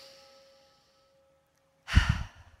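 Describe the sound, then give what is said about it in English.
A deep, breathy sigh-like breath during a guided relaxation exercise at a well-being school, arriving as one loud airy burst after near silence. “Take a deep breath in.”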